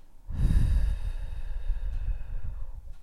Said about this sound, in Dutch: Adem rustig in. En adem uit.